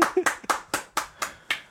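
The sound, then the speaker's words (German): A short run of sharp, distinct hand claps from just a few people, marking a small celebration. The claps fall in a steady, even rhythm. “Wow, Applaus!”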